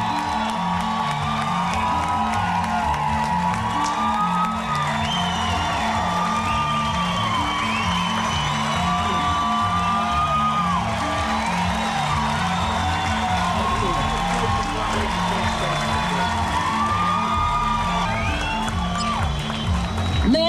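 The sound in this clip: Loud, sustained crowd cheering at an Atlanta Pride event as a speaker is welcomed onto the stage, with whoops, shouts and clapping running unbroken throughout, dense and steady, with voices mixed in.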